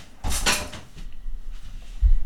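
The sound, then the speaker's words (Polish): A window is closed: a short, bright scraping rush of movement, then quieter hiss, and a low solid thump near the end as it shuts, with no talking. “Okno jest zamknięte.”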